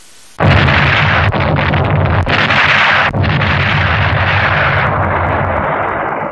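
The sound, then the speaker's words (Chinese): Enemy tank cannon fire and exploding shells from random shelling: a sudden loud blast gives way to dense, continuous rumbling broken by several sharp cracks. The roar holds heavy and steady, then slowly fades toward the end. “说不定是刚才敌人的坦克。 不像是发现目标， 是敌人乱打炮。”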